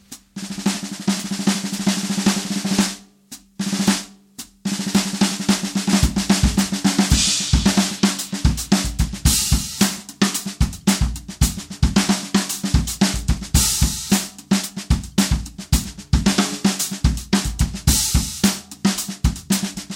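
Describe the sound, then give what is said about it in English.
A 14x5.5 Gretsch Brooklyn snare drum played with a full drum kit, captured mainly by two room mics with a bass drum mic adding low end. Many sharp snare cracks and kicks form a steady groove, with a short break early on. “This is the 14x5.5 Gretsch Brooklyn snare drum.”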